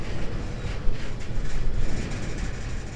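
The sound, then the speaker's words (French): A very long Russian freight train of 60 gas wagons, each weighing 41 tonnes, rolls westward. The sound is a steady, heavy low rumble with broad rushing hiss and no voices. “ce train immense à destination de l'Ouest comptait 60 wagons de 41 tonnes chacun.”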